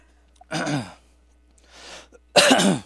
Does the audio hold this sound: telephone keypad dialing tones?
no